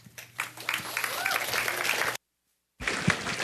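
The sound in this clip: Sustained, dense applause from an audience at a church welcoming a speaker. It is a broad, steady patter that cuts off abruptly for a moment, then resumes.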